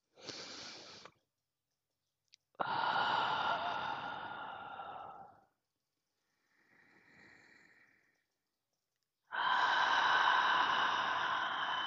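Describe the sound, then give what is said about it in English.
Slow, deep breaths are drawn together during a guided meditation. Long airy inhales and exhales swell and fade in a few broad waves, one faint and soft, with no talk over them. “So let's take three deep breaths together, and then I'll say an intention, and we will start the transmission.”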